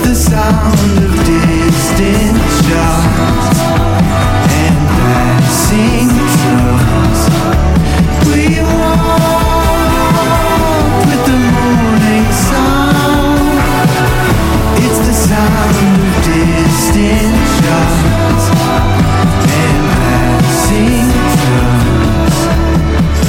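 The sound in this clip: A song plays loud and steady for the whole stretch, layered guitars, bass and drums with a rolling melodic line, full and continuous without any talking over it.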